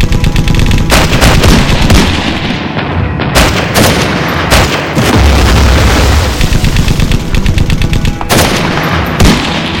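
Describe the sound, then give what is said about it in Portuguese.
Intense rifle fire and coastal artillery in a wartime battle, as French defences in Morocco resist an assault. Loud, dense, continuous volleys of sharp cracks are mixed with deep booms, with no pauses and no voices. “Com intensa fuzilaria e uso da artilharia costeira.”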